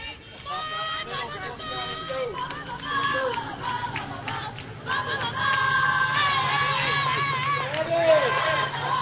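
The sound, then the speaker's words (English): Kingwood Park fans make crowd noise at a softball game, with many voices shouting and calling out over a steady hubbub. It is continuous and fairly loud, and it swells louder in the second half. “And that is the Kingwood Park crowd trying to get involved in the game here.”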